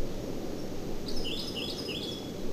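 A bird calls with a few faint, high, buzzy notes in a short series over steady low background noise.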